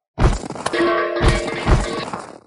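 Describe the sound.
Items and spirit stones spilling out of a white storage bracelet, a fantasy-story sound effect: a few loud clattering crashes with bright, glassy chinking that tails off over about two seconds.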